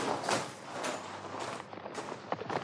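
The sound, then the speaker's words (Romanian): An approaching herd of bison makes a dense, noisy patter of hoofbeats that stays steady and fairly loud, with a few sharper thumps near the end. “Sem, asta ce mai e? Dacă nu mă înșală urechile mele bătrâne, în câteva clipe va trece pe aici o turmă de bizoni.”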